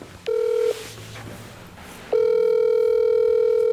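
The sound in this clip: Telephone ringback tone as a phone call is placed: one short, steady electronic tone, a pause, then a longer steady tone that carries on to the end.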